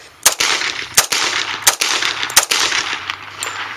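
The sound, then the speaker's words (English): Gunfire from a .45 pistol loaded with exploding hollow point rounds: four loud, sharp cracks at an even pace, then a fainter fifth, each a sudden burst over steady hiss. “That was the first round. These are exploding hollow point rounds”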